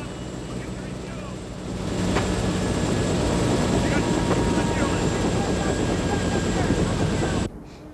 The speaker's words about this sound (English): As they do so, the downdraft spews up snow that lies peacefully on the ground. As the blades slow down, Rob and his co-pilot leave the helicopter.